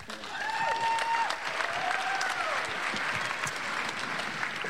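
A church audience applauds during a service with sustained, dense clapping from many hands that stays even throughout.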